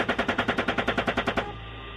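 Automatic gunfire in a military engagement: a fast, even burst of more than a dozen sharp shots, then it cuts off into a low steady rumble.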